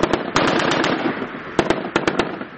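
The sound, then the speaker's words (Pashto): Gunfire from light and heavy weapons during a commando military exercise in a mountainous area of Kandahar's Daman district: loud, sharp bangs in quick bursts and clusters, with a rumbling wash of noise between the shots. “د خپل ځواک شودنی په موخه د سپکو او درنو وسلو تمرینونه ترسره کوي”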